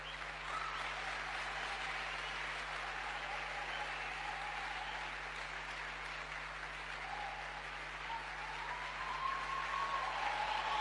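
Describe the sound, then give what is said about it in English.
Applause in a church as a pastor comes in, a dense, even wash of clapping that lasts the whole time and stays fairly faint. “Can we give her a clap offering as she comes in Jesus' name?”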